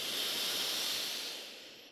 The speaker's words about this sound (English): So before we go on to theme number two, let's take a nice big deep breath in through your nose together.